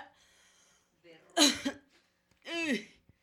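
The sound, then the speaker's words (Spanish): Coughing after drinking a glass of water: a faint breath leads into a sharp cough, then a second, more voiced hacking burst, with brief quiet between them. “acabo de tomar un vaso de agua y me dio la tos”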